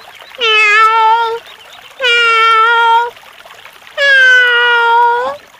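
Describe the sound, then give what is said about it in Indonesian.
A pet cat meows loudly three times. Each meow is drawn out for about a second and has a bright, steady tone, with short pauses between them. “kucing kesayangannya mengeong kencang sambil meluruskan ekornya.”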